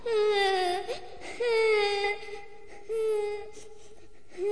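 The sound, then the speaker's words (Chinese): A child crying in anguish, with repeated drawn-out sobbing wails that waver in pitch and come in several bouts separated by short breaths. “小孩又着急又伤心，就呜呜呜地哭了起来。”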